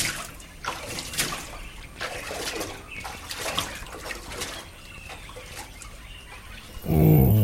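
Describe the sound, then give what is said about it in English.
Water splashes as a person takes a long early-morning swim and bath, with irregular sloshes and splashes that rise and fall in loudness. “So very, very early, every morning, he would take a long swim to fully exercise his body.”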